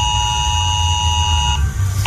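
A mobile phone sounds a civil protection emergency alert during a pilot test in Terres de l'Ebre, Penedès and Camp de Tarragona. The loud, harsh, buzzing tone holds steady, then shifts briefly near the end.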